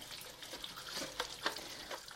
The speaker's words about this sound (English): And now I'm just giving everything a really good rinse off, this time to get rid of any bleach residue.